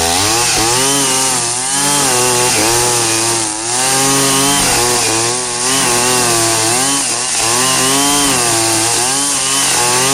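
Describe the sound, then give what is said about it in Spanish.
Brush cutter engine whining as it cuts star grass in the morning, loud and continuous, its harmonic drone briefly dipping in pitch every two seconds or so as the blade bites into the grass. “Vea cómo está cortando de buena el pasto, vea. Es pasto estrella, vea.”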